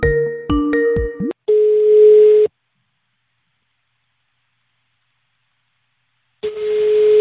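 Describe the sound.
Telephone line tone on an international call: a few short, choppy tone bursts, then a steady mid-pitched ringing tone that sounds for about a second, falls silent for several seconds, and returns.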